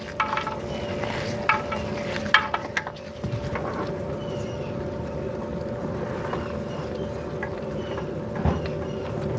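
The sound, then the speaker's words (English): Hot engine oil dribbles out of a removed oil filter in a steady, continuous splattering trickle, with a few slightly louder splashes and a faint constant tone running underneath. “Here comes more oil. There's a lot more oil inside the filter than you would think. And you gotta watch out so you don't burn yourself on that oil.”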